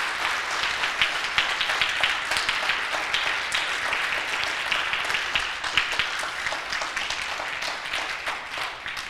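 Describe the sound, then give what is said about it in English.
Applause from a church audience during a sermon. Steady, dense clapping lasts about nine seconds, with individual claps cracking through at an even level. “Can I give a round of applause just somewhere, anywhere, just to keep me going?”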